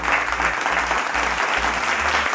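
Applause fills the entire clip: thick, rapid clapping at a steady, fairly loud level, with a low hum underneath and no pauses.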